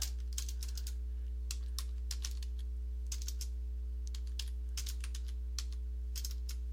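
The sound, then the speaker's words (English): Rapid typing on a computer keyboard: many irregular, sharp clicks in quick bursts and short pauses, over a steady low electrical hum, with no voices. “God damn it. I can't even type.”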